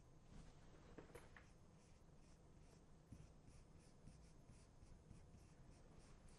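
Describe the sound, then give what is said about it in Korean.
Handwriting during a lesson comes through as faint, scratchy strokes in an uneven rhythm, with many short scrapes and small taps over a quiet background. “자, 함께 써볼게요.”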